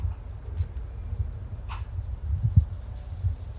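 Chalk rubs and scratches across paper while drawing, with soft, faint strokes over a low hiss and a few slightly brighter scrapes.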